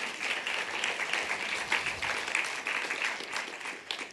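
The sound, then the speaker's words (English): A church audience applauds after a testimony, with steady, dense clapping that holds at an even level for several seconds. “Well, y'all go ahead and give them a hand.”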